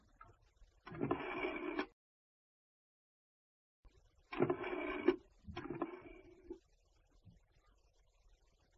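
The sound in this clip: A coin goes into a payphone slot and a number is dialed: a few faint mechanical whirring bursts, each about a second long, separated by quiet gaps.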